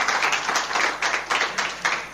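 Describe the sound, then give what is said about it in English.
A round of applause at a quiz: the group claps in a rhythmic, pulsing pattern, with many sharp bursts falling in an even beat and no talk over them. “A round of applause for the Christmas.”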